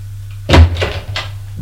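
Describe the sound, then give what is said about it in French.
A door at the top of a staircase is opened, producing a few short clunks and rattles over a low, steady hum. “Et il ouvre une porte qui se trouve en haut des escaliers.”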